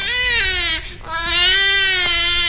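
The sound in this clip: A baby crying in a loud, sustained wail with a brief catch of breath partway through before the cry resumes just as strongly.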